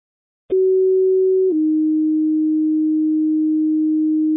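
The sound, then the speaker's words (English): Two-tone dispatch alert paging an ambulance to a sick-person call: a loud, steady pure tone lasts about a second, then drops to a slightly lower tone held for roughly three seconds with no voices. “Grass 411, ambulance 412, second tones for sick person at 135 Illinois Street.”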